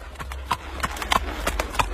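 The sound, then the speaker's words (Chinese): Hooves of the emperor's horse clip-clop as it is led through the palace grounds: many sharp, uneven hoof strikes of moderate loudness, each a crisp knock, with no voices. “郭贺牵了御马来，抱着皇上骑马。”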